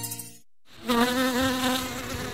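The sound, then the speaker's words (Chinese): Mosquito buzzing: a thin, steady, high-pitched whine with a slight waver, starting after a brief silence and holding at a fairly loud level to the end, with no voices. “有蚊子，让蚊子吸饱我的血，蚊子就不会去叮爸爸妈妈了。”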